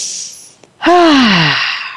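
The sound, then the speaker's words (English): A deep breath: a soft, airy inhale, then a brief pause and a loud, voiced sighing exhale that slides downward in pitch and slowly fades. “I want you to take a deep breath.”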